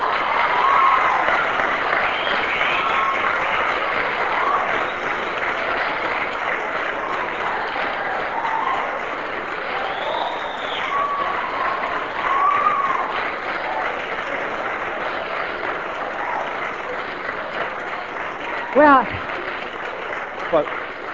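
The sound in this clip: Audience applause: steady, dense clapping from a crowd that carries on for about twenty seconds at an even, fairly loud level.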